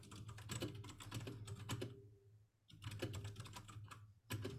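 Someone types a request on a computer keyboard with rapid, steady clicking keystrokes. The typing pauses briefly partway through, then resumes at the same brisk pace.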